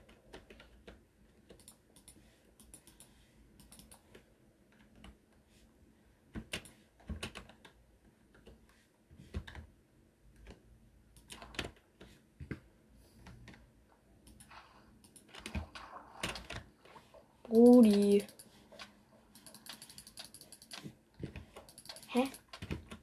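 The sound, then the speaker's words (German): Typing a chat message on a computer keyboard during a Bedwars match: many quick, clicky keystrokes in irregular bursts, mostly soft, with a louder cluster late on. “Ich schreibe mal kurz in den Chat Peace.”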